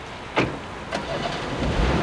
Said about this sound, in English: barrels out of a rental car lot in a long gray sedan